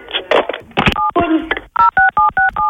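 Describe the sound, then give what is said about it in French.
Touch-tone keypad beeps of a phone dialing the police, a quick, even run of short tones that comes mostly after a stretch of talking. “Elle croit qu'elle a raccroché, elle appelle la police.”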